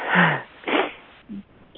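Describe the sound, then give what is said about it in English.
Yawning during a group conversation: a long breathy yawn with a low falling voiced tone, followed by two shorter breathy sounds, the last quite brief. “I'm yawning a lot.”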